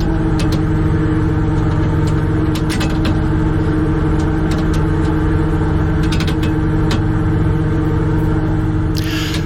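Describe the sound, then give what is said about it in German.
Steady engine drone of a shrimp-fishing cutter at sea in the Wadden Sea as the nets are set out, a constant low hum with occasional faint clicks and rattles on top. “Wir sind schon mitten im Wattenmeer auf dem Krabbenkutter vor der Hallig Langeneß und jetzt werden die Netze ausgebracht.”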